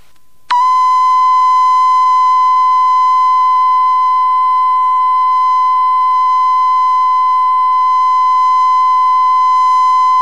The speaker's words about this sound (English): Tone Level 1K, 10 seconds at 0 dB.